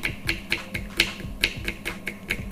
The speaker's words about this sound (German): Jetzt schnappe ich mir meine Zwiebel stelle die runter. Erstmal vierteln und dann